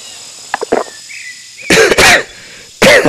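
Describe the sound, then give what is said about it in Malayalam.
Coughing from an ailing man who has just been offered bottled water: a few brief, softer coughs, then several loud, harsh, rasping coughs in quick bursts, with no talk between them. “ചുമ വല്ലാതെ വീണ്ടും തുടങ്ങിയല്ലോ sir.”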